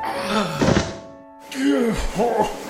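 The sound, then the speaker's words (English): A heavy thunk as a man's limp body, heavier than he looks, is set down onto a bed, amid voiced straining sounds before and after the impact. “Lift with your legs. Oh, he's heavier than he looks. Place him gently on the bed.”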